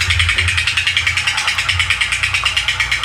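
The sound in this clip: A spinning prize wheel ticks rapidly, its clicks coming in a fast, even rhythm against a low mechanical whir, with no voices over it.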